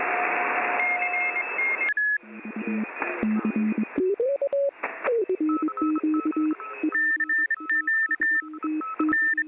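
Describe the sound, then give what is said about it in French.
Amateur radio telegraphy tones: steady on-off beeps that shift among several pitches, with a brief gliding tone midway and a loud static-like burst at the start, continuous throughout without voices. “si je voulais devenir radio amateur, il fallait maîtriser, enfin plus ou moins, la télégraphie. C'était une nécessité pour obtenir la licence.”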